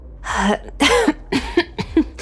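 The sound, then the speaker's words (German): A few short, voiced coughs and throat-clearing sounds, used to cover a sigh of relief. They come as separate bursts with brief pauses between them, and no one speaks. “Beinahe hätte ich sogar vor Erleichterung geseufzt. Das konnte ich allerdings gerade noch rechtzeitig mit einem Huster überspielen.”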